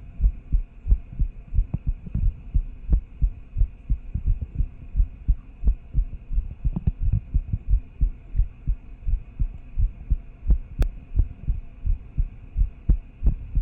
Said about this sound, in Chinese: 心跳本来就偏快，